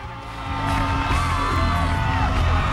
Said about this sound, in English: A massive crowd is gathered outside the hospital. They're all cheering on John